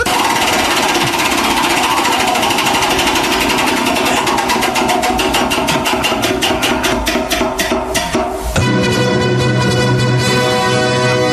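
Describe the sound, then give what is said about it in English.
A prize wheel spins with a rapid, loud run of ticks that gradually spread apart as it slows, then stops abruptly and gives way to a steady tonal sting. “We have to spin the wheel. Of stupid.”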